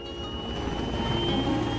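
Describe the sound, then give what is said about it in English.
Helicopters on an outdoor landing site give off a steady mechanical drone with a thin, high whining tone, even and moderately loud throughout, with no talking. “As Kendricks turns and walks towards the helicopters, Patience waves to her in tears.”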